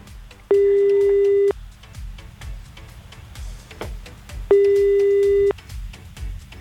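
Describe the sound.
A telephone ringback tone plays while a call is placed: two long, steady mid-pitched beeps of about a second each, separated by a longer pause, over faint background noise.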